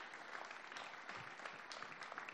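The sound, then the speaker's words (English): A church audience applauds the worship band, a steady, fairly faint mass of clapping that continues without pause. “You guys give a round of applause for our worship band. We don't do that enough.”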